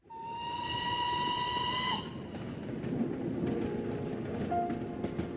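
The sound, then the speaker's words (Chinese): A steam train's whistle blows a loud, steady, bright tone for about two seconds on a train bound for Yan'an, then gives way to the train's continuous rumbling, hissing travel noise, with a brief higher whistle note near the end. “此刻我在开往延安的列车上给您写信”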